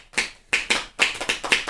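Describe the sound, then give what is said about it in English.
Sharp, crisp snap-like clacks made with the fingers and hands, a quick and slightly irregular series of bright, percussive hits with short silences between them. “This kid taught me how to do this thing with my fingers. Like, where I do the... And it sounds really like a snap or a clack. It's like this.”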